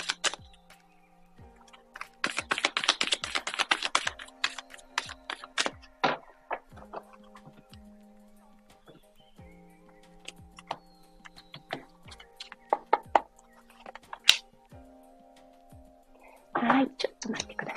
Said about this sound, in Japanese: アドバイスカード引いていきますね。